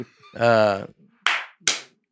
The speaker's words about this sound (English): Just clapping.